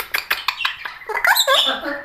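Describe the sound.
A pet bird named Arkasha gives a quick run of short squeaky clicks, then sweeping, warbling chirps that rise and fall in pitch.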